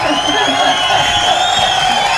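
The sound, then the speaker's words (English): Audience cheering and whooping, a dense mass of voices that stays loud and continuous throughout. “We need a little applause over here.”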